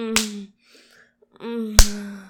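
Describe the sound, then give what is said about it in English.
A hand slaps bare buttocks twice, two sharp smacks spaced well apart, each cutting through a moaning voice. “Slap me again. Again. Again, again. Oh, slap my ass until they're completely red if you want.”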